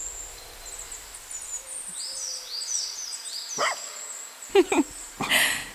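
A dog gives a few short barks on a woodland path by a country estate, following steady high birdsong. The barks come as brief, clear bursts near the end.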